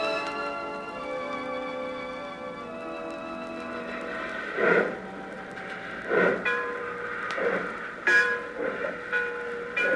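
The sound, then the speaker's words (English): Freight yard ambience with trains: a sustained, multi-toned train horn gives way to several heavy metallic clanks and thuds from rail cars over a steady low rumble. “The scene is the edge of a freight yard.”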